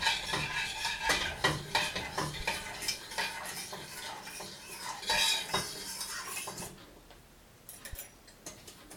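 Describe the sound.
A spoon stirs a jelly mixture in a bowl, making many quick clinks and scrapes against the sides in a steady, busy rhythm that eases slightly near the end, with no talking.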